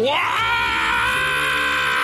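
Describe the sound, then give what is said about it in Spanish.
A man's loud rock-style scream for a contest, sweeping up in pitch at the start and then held as a long, strained, steady high wail. “¡Uah! Buen grito, ¿eh?”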